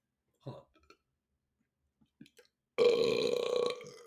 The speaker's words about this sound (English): That was a burp, though. That was a burp.